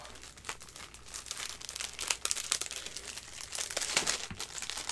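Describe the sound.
Plastic wrapping on a package of arequipe-filled bridge wafers crinkles and crackles as it is torn open, a continuous busy rustle with sharper crunchy bursts and no talk.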